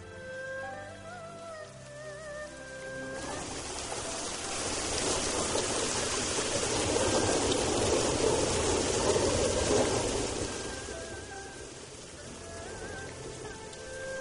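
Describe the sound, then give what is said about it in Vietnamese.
Heavy rain falls outside in a dense, hissing roar that swells through the middle and eases slightly toward the end, with a soft tonal sound fading out at the very start. “Dù bên ngoài đang mưa rất to”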